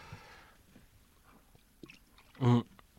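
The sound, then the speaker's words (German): A sip and gulp of beer: one short, loud, low swallowing burst stands out against faint scattered mouth and handling noises. “Moment, da muss ich gerade mal einen Schluck Bier nehmen.”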